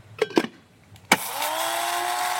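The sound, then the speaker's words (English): Coffee grinder grinding a tablespoon of beans, starting after a couple of light clicks with a sharp onset, then settling into a steady, high buzzing whine. “so what we're going to do is take a tablespoon and put it in our coffee grinder and”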